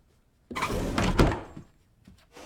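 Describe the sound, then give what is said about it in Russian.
A door slams shut at the end of a corridor, a sudden heavy thud with a short rattling, rumbling decay that dies away into quiet. “В конце коридора захлопывается дверь.”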